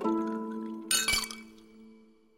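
Glasses clink together in a toast, a brief cluster of bright, glassy chinks with a short ringing tail, heard over sustained tonal sounds that fade afterward.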